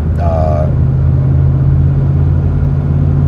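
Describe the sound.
A car is being driven, with a steady low engine rumble and road hum that stays loud and constant from start to finish, with no clear changes in speed.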